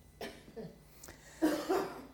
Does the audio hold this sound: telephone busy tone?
no